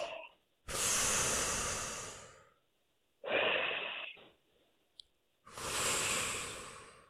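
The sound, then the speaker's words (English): Slow, deep breathing during a hug: a few long, loud breaths with quiet pauses between them, each a broad airy rush, with no talking. “Now breathe slowly and deeply and stay in the hug.”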